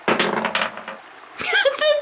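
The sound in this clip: Dice rolling and clattering on a table during a tabletop role-playing game, a rattling burst in the first second, followed by a voice speaking.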